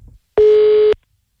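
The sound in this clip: Telephone tone of an outgoing call: one steady, loud, mid-pitched beep lasting about half a second, heard alone against silence.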